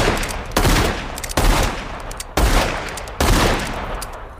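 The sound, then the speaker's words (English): Gunfire from a gun shot repeatedly until empty in a film scene: four loud, sharp shots at uneven intervals, each with a long rumbling tail of decay. “he stands over him and he opens fire and shoots until that gun is empty”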